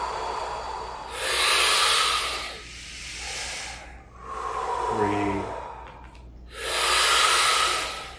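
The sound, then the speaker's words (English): Slow, deep breaths during a guided breathing exercise: a few long, airy inhales and exhales, each a broad hiss that swells and then fades, with short quiet gaps between them. “We're going to have 5 more good breaths.”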